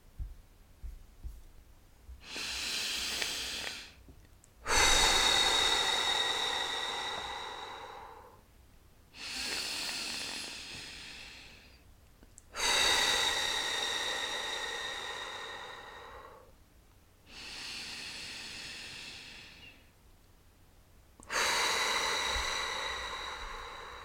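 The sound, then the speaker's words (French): Three slow, deep breaths taken during a sophrology relaxation session, each a short, soft airy inhale followed by a longer, stronger hissing exhale, evenly paced with no talk. “j'effectue trois grandes respirations pour oxygéner les tissus que je viens de stimuler.”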